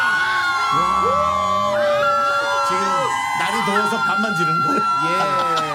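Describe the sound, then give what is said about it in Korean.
A crowd of fans outside a trot song contest cheering and shouting, many overlapping high voices screaming and whooping continuously and loudly for the whole stretch. “아니 밖에 많이 왔어요. 여러분들이 모르실까봐 마이크 살짝 열어주시고, 자, 희랑별 소리 질러!”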